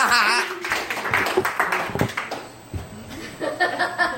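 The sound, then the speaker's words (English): Scattered audience clapping and chuckles at a comedy show as a comedian is introduced, with brief bursts of claps mixed with talk and laughter. “Put your hands together for Kyle Smith.”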